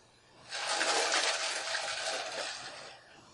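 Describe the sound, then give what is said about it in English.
Ice rattles and clinks as iced coffee is stirred in a cup, a brief, fairly faint jangling rush that swells, holds for a couple of seconds, then fades. “I got iced coffee here. It's not all cold. I gotta stir it.”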